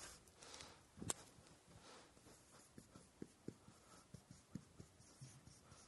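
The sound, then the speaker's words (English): A pen writes on paper in many quick, faint scratchy strokes at an uneven rhythm, with one sharper tap or mark near the start. “All right, I'm going to write this down.”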